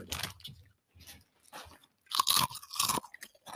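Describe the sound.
Flaming Hot chips being crunched while eating: faint, irregular crisp crunches, sparse at first, then denser and louder bites toward the end.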